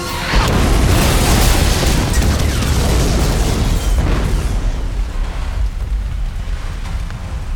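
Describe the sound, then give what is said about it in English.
A bomb goes off in a loud, sustained blast that roars at full strength for about four seconds, then gradually fades into a lower, rumbling tail. “The Haydenmen turned to run, and the bomb went off.”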